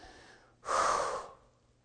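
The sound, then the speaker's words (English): A person breathes out onto someone in a single forceful, breathy exhale lasting about half a second, standing out over a faint low hum. “Breathed upon him.”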